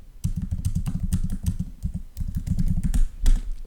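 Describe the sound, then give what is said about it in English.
Rapid typing on a computer keyboard as a search query is entered: many quick, uneven keystrokes clatter alone in short bursts, with brief pauses between runs. “I just typed in how to end a podcast episode.”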